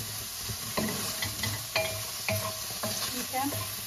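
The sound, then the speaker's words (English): Onion and tomato cook in a pan without oil, the onion caramelizing in the tomato's moisture. A faint, steady sizzle runs throughout, broken by several sharp scraping stir strokes at irregular intervals. “no oil is being added, and I will not be adding any oil going forward. The onion is caramelizing, the moisture from the tomato is going to be just enough.”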